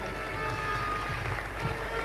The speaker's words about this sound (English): Give him a round of applause.